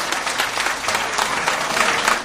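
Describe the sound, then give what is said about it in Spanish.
Applause at a political rally, as the crowd cheers the mayor's remarks with dense, steady clapping that holds at an even, loud level throughout, with no voices. “Los aplausos, por cierto, fueron muy recurrentes, sobre todo cada vez que hacía referencia, sobre todo respondía, en este caso la alcaldesa, Nidia Arévalo.”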